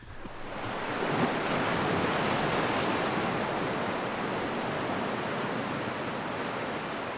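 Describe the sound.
Sea waves at sea, a steady broad roar of surf and rushing water that swells in over the first second and then holds evenly, with no voices.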